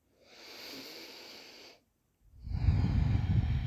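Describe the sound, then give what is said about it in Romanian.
Deep breathing during a guided relaxation exercise: one slow, airy inhale, a short pause, then a longer, heavier, breathier exhale, with no talk. “Inspiră și expiră de 3 ori mai adânc decât de obicei”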